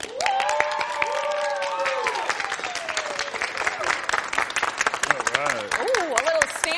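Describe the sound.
Audience applause and cheering welcome guest Lawrence Guy at the Hall at Patriot Place. Dense clapping runs steadily throughout, with raised voices and whoops rising over it.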